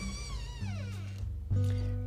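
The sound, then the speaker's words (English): A pet house cat that is acting up lets out one drawn-out meow that slides downward in pitch, fairly faint, over a steady low hum, with no talk. “My kitty cat's acting up.”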